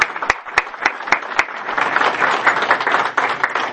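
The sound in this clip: Church audience applause welcoming guests: a few sharp, separate claps at first, then a swell into continuous, lively clapping from many hands that stays fairly loud to the end.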